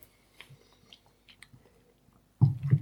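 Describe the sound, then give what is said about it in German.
Sip of a drink during a tasting: a few faint wet mouth clicks and soft slurps spread across a quiet stretch, then a short run of louder gulping sounds at the end. “Aber nichtsdestoweniger, nehme ich nochmal einen Schluck.”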